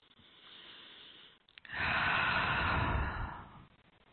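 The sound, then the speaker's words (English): A single long, deep inhale, a soft breathy rush lasting about two seconds, follows a fainter, quieter breath. “Let's take a breath.”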